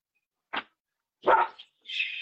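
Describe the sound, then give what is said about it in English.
Dogs barking in a few separate bursts: a short sharp bark, a louder, fuller one, then a longer, more sustained bark at the end, with no talk over them. “God bless it, dogs.”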